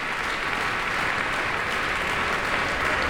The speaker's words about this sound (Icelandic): Og það fagnað áfram í smekkfullri Eldborg Hörpu.